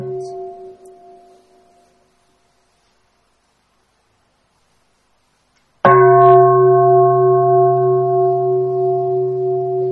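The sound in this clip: A Buddhist temple bell struck once rings out loud and long after a silence, its bright, sustained tone slowly pulsing, while the faint tail of an earlier stroke fades away at the start.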